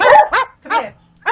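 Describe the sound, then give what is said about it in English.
A dog barks four times in short, sharp bursts, the last coming after a brief pause. The barks are loud and alone, with no talk over them. “Deb's just going to shut the dog up”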